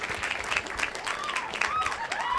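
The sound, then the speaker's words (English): Continuous audience applause greeting the stars of Swiss Army Man, a dense, even wash of clapping that holds steady throughout. “let's give it up for the stars of Swiss Army Man, Paul Dano, Daniel Radcliffe.”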